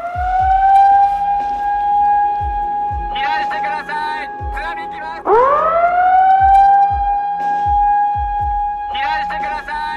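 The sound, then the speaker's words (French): A tsunami warning siren sounds in Japan after an earthquake. Its loud, sustained wailing tone cuts out briefly, then winds back up in pitch and holds steady, while people talk at intervals. “Cette sirène, tous les Japonais la connaissent. 3 minutes après le tremblement de terre, l'alerte au raz-de-marée lancée.”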